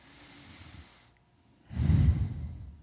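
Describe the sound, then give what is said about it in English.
A person breathes slowly and deliberately: a soft, quiet inhale and a short pause, then a louder, breathy exhale that swells and fades, with no talking. “breathe and to concentrate and think about that you are breathing”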